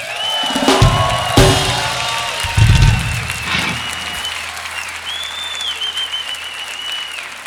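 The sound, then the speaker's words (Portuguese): Audience applause at a live concert greets a musician being introduced on stage. Sustained clapping from a crowd runs throughout, with a few louder swells near the start. “Eu quero chamar, com uma salva de palmas, Maurício Pereira.”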